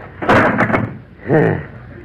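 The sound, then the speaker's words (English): An oven door being opened in a kitchen, a broad clattering thunk lasting about half a second, followed by a second, softer rasping sound. “Well, hurry up and open the oven. I'm dying to see it.”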